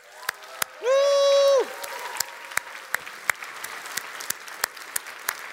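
Congregation applause: sparse, sharp claps spaced out across several seconds, with a short held vocal shout near the start.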